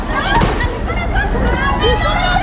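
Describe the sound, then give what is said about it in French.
Police fire tear gas grenades at a street protest of high-school students, with a few sharp pops and bangs cutting through a loud, constant din of crowd noise. “Qui, pour répliquer, tirent des grenades lacrymogènes.”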